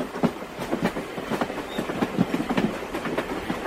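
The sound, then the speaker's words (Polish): A passenger train rolling into a station before dawn, its wheels beating a steady clickety-clack of many rhythmic knocks over a continuous rumbling roar, with no voices. “Pociąg wtacza się na stację z punktualnością brytyjską raczej niż francuską.”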